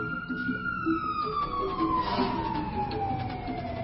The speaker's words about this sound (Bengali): fire সার্ভিসের গাড়ি মাত্র যাচ্ছে